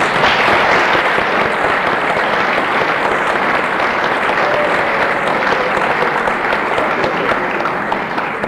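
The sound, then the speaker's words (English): A concert audience gives sustained applause to welcome a pianist at a Columbus Symphony event. The dense clapping stays steady and loud throughout, with no talk. “So please give a warm welcome to Miss Jean Backman.”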